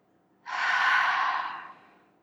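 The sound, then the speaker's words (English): One long exhale released after holding a deep breath in a breathing exercise: a breathy rush that starts abruptly, then tapers off over about a second. “Hold it till it feels a little uncomfortable, hold it. Hold it, let it go.”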